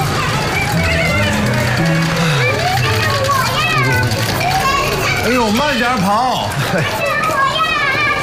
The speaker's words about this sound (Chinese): 我们这弄堂里的小孩啊，永远都精力这么充沛，回头你就知道了，想睡个懒觉都睡不着。